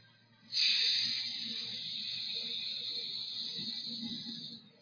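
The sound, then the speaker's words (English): A person hisses through closed teeth with the mouth held open: one long, steady, bright hiss that starts abruptly, stays strong and even, and eases only slightly before stopping near the end. “Everybody, let's just start with the hiss. Keep this open, and just the teeth are closed.”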